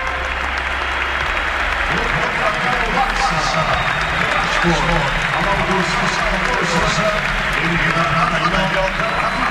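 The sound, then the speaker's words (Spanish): Football stadium crowd at Camp Nou on its feet, roaring, applauding and chanting Rafinha's name in a dense, continuous wash of noise, with a commentator talking over it. “El público en pie, Rafinha. El público en pie coreando el nombre de Rafinha.”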